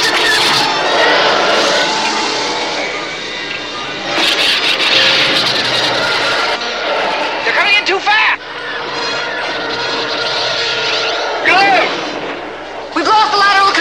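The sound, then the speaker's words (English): Space battle sound effects as attacking starfighters fire on an escaping spaceship. A loud, continuous engine roar runs throughout, broken by repeated blaster bursts and several sweeping tones. “The Falcon accelerates into space, but now Luke and Leia must fight off attacking Imperial fighters. Here they come!”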